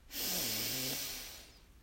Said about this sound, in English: Take a deep breath in